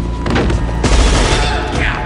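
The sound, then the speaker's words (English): Rapid gunfire from guns fired at bodyguards in a corridor: a dense, loud volley of overlapping shots and booms that sustains steadily for about two seconds without a break. “He carries on firing. The guards topple and fall.”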